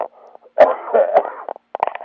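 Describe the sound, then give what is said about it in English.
A person coughing and spluttering in a few rough, throaty bursts, followed by a cluster of short, choppy coughs. “Excuse me, I'm spluttering and coughing.”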